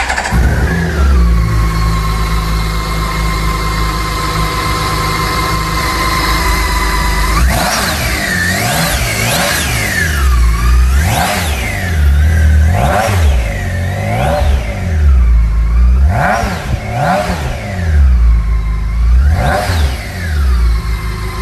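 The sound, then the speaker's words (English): A BMW K1600 six-cylinder motorcycle engine idles smoothly and steadily for several seconds. It then revs repeatedly, with many quick throttle blips that each climb and drop in pitch, staying loud throughout with no voices. “How smooth is that? How many cylinders do you need for such an abundance of power? Does it matter? Ah, the joy of six and the thrill of the K1600.”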